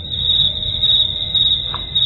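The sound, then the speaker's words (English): A crickets-chirping sound effect: a continuous, thin, high trill that runs steadily without pause and has nothing else over it. “Some crickets?”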